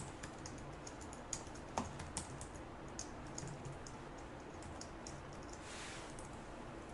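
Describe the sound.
Computer keyboard typing as code is written in Visual Basic: many faint, irregular keystroke clicks with a few sharper taps, with no talking.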